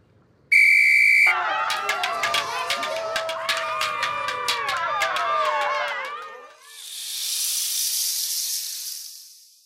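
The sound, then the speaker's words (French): One sharp, steady whistle blast signals the start of a team mock fight with wooden swords. It is followed by many excited shouting voices and then a broad, rushing hiss that swells and fades. “À mon coup de sifflet, chaque équipe attaque l'autre !”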